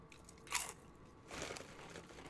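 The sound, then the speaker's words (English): Potato chips crunch as someone eats them from a bag: one sharp crunch, then after a short pause a longer, denser stretch of crisp crunching and crackling. No voices are heard. “Now you're just going to make noise with a bag of chips.”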